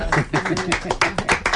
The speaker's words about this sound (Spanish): Muy bonita. Aplaudimos